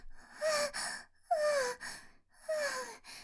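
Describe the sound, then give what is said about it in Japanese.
Heavy, voiced gasping breaths from a person recovering from an electric shock, three loud ragged pants in a row, each with a strained, slightly falling tone and breathy hiss. “やっとスイッチ切れた。体に力が入らないや。息がぜえぜえして、体中がぐたっとしてる。”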